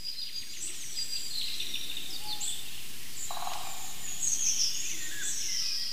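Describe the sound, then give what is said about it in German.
Eurasian golden oriole singing, faint fluty whistled phrases mixed with thin high bird calls over a steady background hiss. “Er hält den Schnabel, weil der Pirol so wunderbar virtuos singt, muss man schon sagen.”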